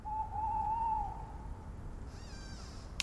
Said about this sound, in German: Draußen vor den Zelten knackt es und manchmal hört man einen Waldkauz.